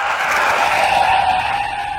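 Car tyres skidding and squealing in a sustained, loud screech with a steady high-pitched tone over broad rushing noise, easing off slightly at the end.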